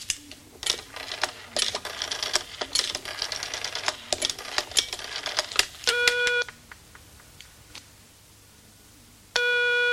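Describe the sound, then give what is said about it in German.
A telephone number is dialed: rapid bursts of mechanical clicks, followed by a buzzing ringing tone that sounds twice with sparse quieter clicks in between. “Indem ich nämlich einfach die Nummer wähle.”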